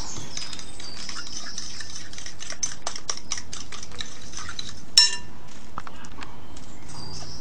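Utensil clinking against a bowl as ingredients are mixed, a run of light, quick taps and scrapes with one sharper knock partway through, then softer stirring.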